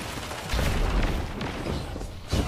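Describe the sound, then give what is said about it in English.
Grenade explosions in a video game: a long, low rumbling boom rolls through the first half, followed near the end by a shorter, punchier blast, with no voices over them. “Dang it, I got hit by the grenade. Wither Horde and the grenade is a good combo.”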